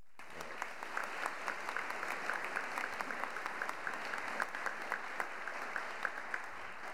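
Audience applause at an award ceremony for a scientific society: steady, even clapping from a crowd that holds at a moderate level throughout, with no cheering.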